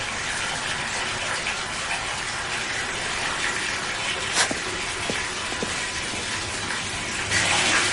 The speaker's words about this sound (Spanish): Luego la chica cierra el grifo y se da un baño.